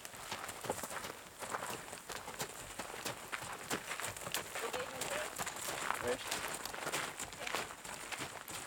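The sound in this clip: Horse hooves clip-clop steadily as several horses walk single file on a trail ride, two of them pack horses carrying luggage, the many hoof falls forming an uneven, continuous patter.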